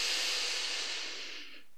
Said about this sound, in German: Und dann einfach mal ganz tief durch die Nase einzuatmen.